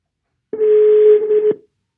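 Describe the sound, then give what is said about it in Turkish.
Telephone ringback tone heard while placing a call: a single steady electronic tone lasting about one second, starting and stopping abruptly in otherwise silence. “Biraz önce aradım ama duymadı beni. Bir daha deniyorum şansımı.”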